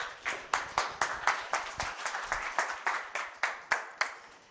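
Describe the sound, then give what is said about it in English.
Applause from an audience welcoming a speaker, a school principal, to the front: many sharp claps in a fairly steady, rhythmic pattern, moderately loud and with no talk over them. “I'd just like you to put your hands together”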